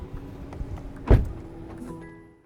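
A passenger exits an autonomous car: one firm thump of the door mechanism stands out midway over a low, steady vehicle hum. A faint high tone follows as the sound fades.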